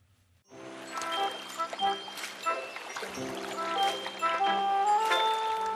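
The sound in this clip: Running water for washing hands and face starts abruptly and keeps flowing, a bright splashing trickle with tinkling tones and talk over it.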